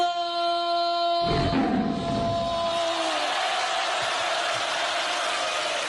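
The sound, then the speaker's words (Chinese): Audience cheering on cue at a live comedy performance. A sudden broad burst of crowd noise breaks in after a sustained tone and then settles into a steady, even roar. “一会儿我起个头，大伙儿一欢呼，姜昆就算掉老虎洞里了啊！”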